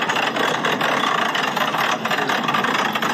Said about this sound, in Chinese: 数十吨重的钢铁巨兽的连接呀、啊！请问驾驶员，这个油门踩的真的是非常的轻柔。